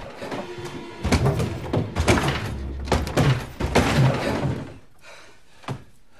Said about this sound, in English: Someone is trying to get through the front door.